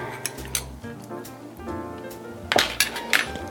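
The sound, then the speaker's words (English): A spoon clinks and taps as about a teaspoon of capers goes into a canned sardine dish. A few sharp metallic clinks cluster near the end over a steady tonal background. “So I'm gonna put in about a teaspoon of capers.”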